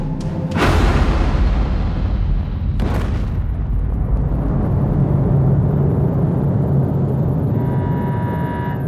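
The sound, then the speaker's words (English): A staged nuclear explosion from reactor coils flushed with fuel injectors, heard as two sharp bursts near the start and around three seconds, then a long, loud, low rumble with a steady hum. “flush reactor coils with the fuel injectors. Yes. I'm saying create a stable nuclear explosion. Now! Initiating. Flush in 3, 2, 1.”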